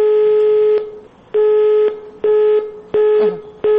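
Telephone line tones sound while a hotline number is dialed. Five steady, buzzy, mid-pitched tones repeat in an even on-off rhythm, with short silences between them and no voices.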